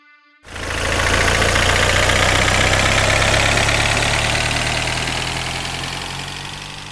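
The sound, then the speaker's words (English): Sustained engine roar from a black Porsche sports car speeding along winding roads in Connemara. It starts abruptly after a brief quiet moment, then holds a loud, steady drone that eases off slightly toward the end. “A black Porsche sped along winding roads of Connemara, followed by a black van.”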